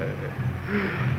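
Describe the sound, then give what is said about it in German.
Engine drone of a Junkers 13 aircraft in flight, a steady, loud, low humming whir with a sustained tonal buzz that holds an even level throughout. “Genosse Kapitän, ich höre das Flugzeug des Genossen Babuschkin.”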